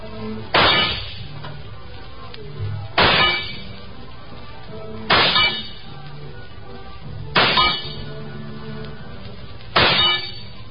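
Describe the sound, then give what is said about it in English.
Five rifle shots fired at metal targets in a carnival shooting gallery. Each is a sharp crack followed by a ringing metallic clang. The shots are spaced roughly two seconds apart over a steady background. “Give me the rifle, mister. I got five more shots coming.”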